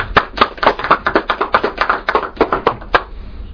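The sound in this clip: Sparse clapping from an evening audience welcoming a speaker, many quick uneven claps that thin out toward the end.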